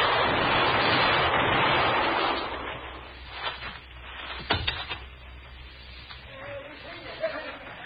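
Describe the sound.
Gunfire rings out in a radio western drama: a rushing noise gives way to a few sharp cracks, with people talking around the shots.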